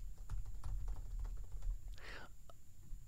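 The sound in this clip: Fingers type on a computer keyboard, producing many quick, light key clicks in an uneven patter throughout.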